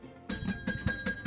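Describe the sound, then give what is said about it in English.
A bright bell rings as a signal during a word game, struck in a rapid series of about six quick, ringing pulses within little more than a second. “I gave that bell ring to you out of deference.”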